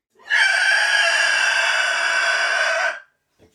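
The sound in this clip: A man voices an imitation of the alien body-snatcher shriek from a film, one loud, piercing, sustained screech lasting a few seconds that cuts off abruptly into near silence.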